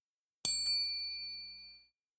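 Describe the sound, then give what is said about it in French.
A single small bell chime, the cue to turn the page in a read-along picture book about the planets, strikes bright and high, then rings on and fades away over about a second and a half. “Au son de la clochette,”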